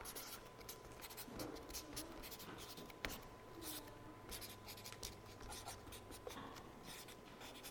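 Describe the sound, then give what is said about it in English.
Writing on a board as the words "spiritual Christian" are written across the top: many quick, faint scratchy strokes in an uneven rhythm, continuing without pause. “So let's write spiritual Christian on the top.”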